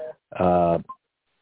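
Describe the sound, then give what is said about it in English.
A telephone tone on a phone line during a Friday prayer call-in, as a call to a caller goes unanswered: one loud, buzzy electronic burst of about half a second, followed by a brief higher blip. “We're going to see if a caller just came in. Nope, it won't answer.”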